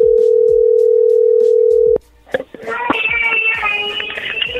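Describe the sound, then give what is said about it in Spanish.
Steady, even telephone tone on a call line that holds for about two seconds, cuts off abruptly, and gives way to crackly, tonal line sounds as the call connects. “Pues si contesta, a ver, ahí entró la llamada.”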